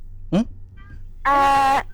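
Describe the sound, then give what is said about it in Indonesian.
A cat meows twice: a short, rising yelp comes first, then after a pause a louder, drawn-out cry holds steady for about half a second. “Ada kucing.”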